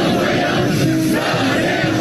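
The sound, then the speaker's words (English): Hundreds of Chinese men and women chanting as they greet President Trump on his arrival in China, a loud, steady roar of massed voices that holds without pause. “President Trump was greeted by hundreds of Chinese men and women chanting in unison, waving American flags”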